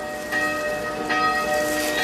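A church bell rings a few times in steady succession. Its metallic, sustained overtones overlap from one strike to the next, fairly loud over a light hiss, with no voices.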